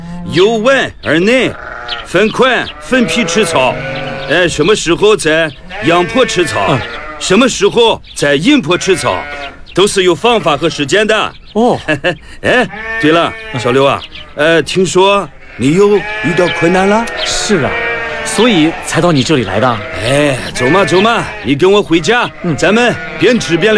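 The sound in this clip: Sheep bleat again and again from a herded flock, mixed with people talking in a conversation about grazing the animals on sunny and shady slopes.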